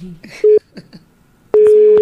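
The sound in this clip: Telephone tones sound while placing a call: a short beep, brief faint voices, then a longer steady ringing tone near the end.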